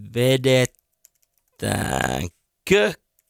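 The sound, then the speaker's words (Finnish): Soft keystrokes on a computer keyboard while a Facebook post is being typed: a few faint, sparse clicks fall in the pauses between short bursts of voice. “Mutta joo, Facebookissa Retroradio-ryhmässä mä naputtelen tänne tällaisen tutun päivityksen”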